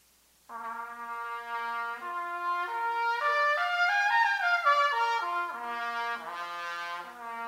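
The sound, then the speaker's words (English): A harmonic series played on a musical instrument without changing fingering. Sustained, bright tones climb step by step to a high peak, then step back down, sounding alone and fairly soft. “You notice I didn't even move my fingers, right? And that's called the harmonic series.”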